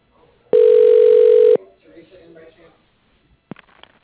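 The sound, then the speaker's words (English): A telephone ring tone sounds on the line while a call is being transferred: one loud, steady, unbroken tone lasting about a second, then low faint sounds and a sharp click. “Please hold while I transfer your call to that extension.”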